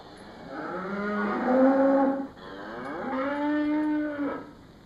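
A sick cow lying on the floor of a cowshed lows twice. Both are long, drawn-out moos, clear and moderately loud, with a strained, wavering tone.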